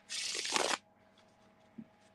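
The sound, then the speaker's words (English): Cards being riffle-shuffled for a psychic card reading: one dense, crackling burst lasting about two-thirds of a second, then near silence with a single faint soft tap afterward. “let me pull a card or two and we'll wrap that up”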